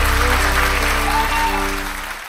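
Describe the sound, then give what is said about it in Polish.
Audience applause at a live event: a dense, steady wash of clapping that holds loud for nearly two seconds, then thins and fades toward the end. “Pietrucha, Zalewska, wielkie brawa.”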